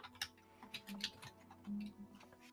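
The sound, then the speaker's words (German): A twenty-sided die is rolled during a tabletop role-playing game, giving a few light, sharp clicks and taps as it tumbles across a surface. “Ich würfel, ich würfel jetzt ein D20. und gucken, mal, was passiert.”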